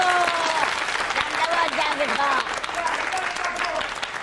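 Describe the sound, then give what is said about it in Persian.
Hand clapping at a lively Tehran-style celebration, with steady, dense clapping throughout and voices or singing carrying over it at a fairly even loudness. “جمشید خان سامورایی بزن دست خشنگه رو”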